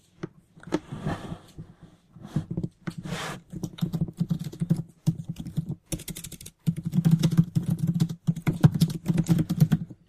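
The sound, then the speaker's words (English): Fast typing on a computer keyboard as chat answers are entered, with dense bursts of keystrokes separated by short pauses, growing busier toward the end. “We're just going to, I'm just type chatting some answers here.”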